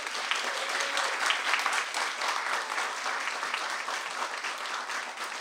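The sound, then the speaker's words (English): Warm audience applause welcomes two writers at an evening event, a steady wash of many hands clapping, fairly soft and even from start to finish. “We're incredibly fortunate to have two such talented writers with us this evening. Please join me in giving them a warm welcome.”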